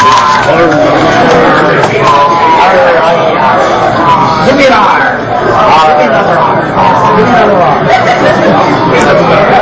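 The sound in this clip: Audience members at an awards ceremony make rowdy pirate-style chatter: a loud, continuous crowd babble of overlapping voices, yells and chuckles that stays dense and steady throughout.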